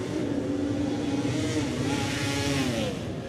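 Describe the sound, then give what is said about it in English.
A Suzuki T500 racing motorcycle accelerates away from the start, its engine a loud, continuous drone with a buzzing, slightly wavering pitch and no pauses. “That's the T500 Suzuki of Paul Jordan, the Davies Motorsport bike. It gets away.”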